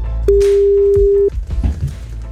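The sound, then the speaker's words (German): A steady electronic telephone tone sounds while a call is placed to a radio listener, holding one pitch for about a second before it cuts off and quieter rustling follows. “Wir wählen jetzt und wollen den nächsten überraschen von euch.”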